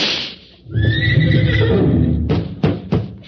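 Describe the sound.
A horse ridden bareback lets out a loud, long whinny that starts after a brief hiss, followed by a few sharp thuds.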